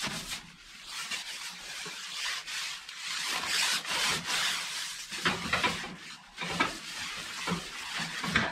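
Cloth wiping down the hot top of a wood-burning cook stove, with several soft, scratchy rubbing strokes that rise and fall in steady passes. The sound stays faint and there is no talk.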